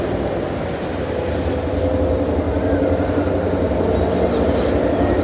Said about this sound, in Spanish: El tren se aleja